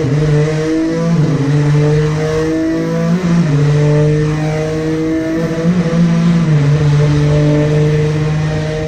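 A 647-horsepower road car with a twin-turbo 3.5-litre V6 revs on a race track: a loud, steady engine drone that climbs gradually and drops sharply at a few gear shifts, with no talk.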